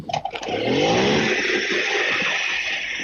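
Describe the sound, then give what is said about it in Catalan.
A motorbike engine starts with a brief clatter, then settles into a loud, steady, buzzing high rev that holds to the end. “que efectivament sou moltes motos, no sé si, encara que sigui una que faci renouet, me faràs feliç. Ja ara posarem una en marxa i menys si ho sents, ho sentiu. Segur que sí.”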